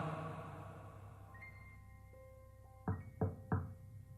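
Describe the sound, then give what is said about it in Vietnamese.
Three sharp knocks on a car door come in quick, even succession after soft, sustained musical tones that carry on beneath them. “Tiếng gõ cửa xe của Tí làm cho Lan giật mình.”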